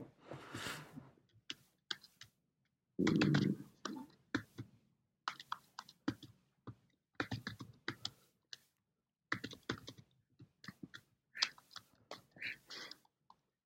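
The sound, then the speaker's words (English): Two-finger typing on a computer keyboard: irregular bursts of crisp key clicks, some quick runs and some single taps, separated by short pauses, with no talk over them. “The faster you try and type, the worse it gets.”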